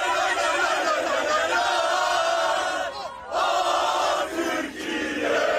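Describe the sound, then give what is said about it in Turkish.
Turkish football fans chant loudly as their national team arrives at its hotel in Vancouver, where they light flares. Massed voices roar almost without pause, with two brief dips before the chant surges back. “Türk futbol severler kafile otele ulaştığında meşaleleri yaktı, tezahüratlar yaptı.”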